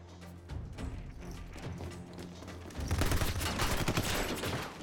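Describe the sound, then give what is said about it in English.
Dense gunfire from a shootout scene in a 2005 action film, set upstairs in a 99-cent store. Many rapid shots blend into a sustained crackling barrage that grows louder about halfway through. “it was a very extensive shootout upstairs there, which was called the 99 cent store that Stuart cut.”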